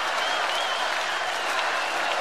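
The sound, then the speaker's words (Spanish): Audience applause at the Quinta Vergara festival amphitheatre: a dense, steady wash of clapping that holds at an even loudness for the whole stretch, with no distinct individual shouts standing out. “Frente a este gran aplauso y a este grito”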